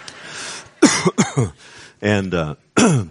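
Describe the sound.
A man with a cold coughs during a church sermon, a series of short, harsh bursts with throaty, voiced edges. Three come in quick succession, then more follow after a brief pause.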